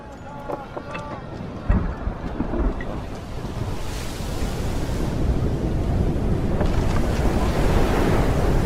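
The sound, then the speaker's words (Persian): A strange wind blowing: a broad, rushing roar that swells steadily louder and fuller, after a quieter opening with a few faint tonal sounds. “این باد عجیب داره از کجا میاد؟”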